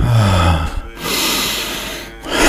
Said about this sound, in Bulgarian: вдишай, издишай дълбоко